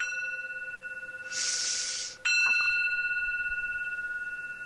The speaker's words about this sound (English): Then I say, breathe in the bell. It sounds like this.